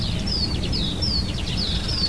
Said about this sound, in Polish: O, słońce świeci, ptaki śpiewają.